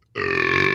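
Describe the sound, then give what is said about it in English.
A single loud, deep burp, sustained and resonant for most of a second, starting abruptly after a brief silence and heard on its own. “Did you hit a button? Because that was cartoonish. That's my burps, dude.”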